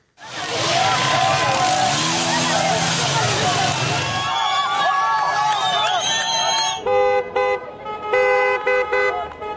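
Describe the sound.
Street protest over soaring fuel and energy costs: a dense roar of crowd voices and traffic, then car horns honking in sustained tones and short blasts above the continuing crowd noise.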